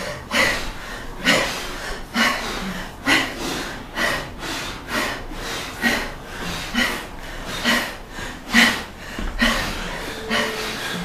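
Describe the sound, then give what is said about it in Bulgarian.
Forceful rhythmic breathing during a guided breathing exercise: many strong, breathy exhalations pulse in a steady, fairly quick beat, each a short, harsh puff of air at similar loudness. “Дишай, дишай, дишай, дишай.”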